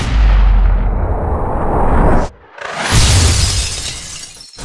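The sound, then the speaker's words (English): A loud, harsh gunshot-like crack in a 2011 Windows video game, bursting out of quiet as a bullet flies across the screen; the noisy blast cuts out briefly, then returns just as loud. “all of a sudden, it's dead quiet, and all of a sudden you hear... and a bullet comes flying across your screen, scaring the living crap out of it”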